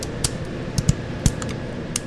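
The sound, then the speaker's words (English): Scissors trimming the venomous spines off a lionfish before cooking: a few crisp, sharp clicks of snipping, spaced irregularly, with no talking. “These ones we would trim with a scissor.”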